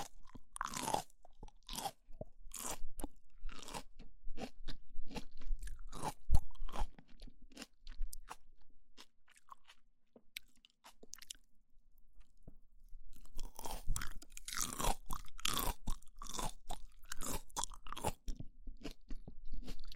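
Crisp crunching of a raw, salty leafy green vegetable with glistening salt-like crystals on its surface being chewed: many sharp, rapid crunches repeat steadily, dip into a quieter stretch midway, then resume loud and dense.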